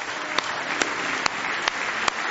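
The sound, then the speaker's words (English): A church audience claps hands in praise during a worship service, a dense, steady wash of clapping with a few sharper claps standing out at an even beat. “Can we give Him a hand clap of praise?”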